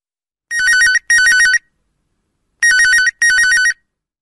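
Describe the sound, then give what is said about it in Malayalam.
A telephone rings for an incoming call in two double rings: four loud, bright, warbling electronic bursts in pairs, with a longer pause between the pairs and no other sound. “ഒരു collar ലൈനിലുണ്ട്, നമുക്ക് നോക്കാം ആരാണെന്ന്.”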